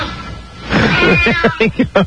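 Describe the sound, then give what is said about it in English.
A cat meows: one long, drawn-out wavering call followed by four short, rapid meows, each sharp and clearly separated at the close. “Are there any black cats running around the studio on Halloween? Meow.”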